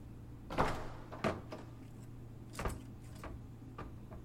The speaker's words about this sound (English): open the hatch to the outside